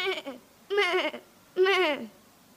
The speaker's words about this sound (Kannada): ಅದೇ ದಾರಿಯಲ್ಲಿ ಮುಂದೆ ಹೋದಾಗ ಮೇಕೆ ಹೀಗೆ ಕೂಗುತ್ತಿತ್ತು